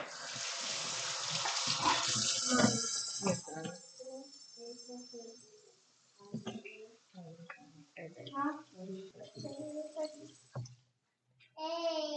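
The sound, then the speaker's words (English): Tap water gushes steadily as a play-dough utensil is washed under a running faucet. The flow fades and an adult and a child then talk. “Did it fall on the floor? Yeah. I'll wash it.”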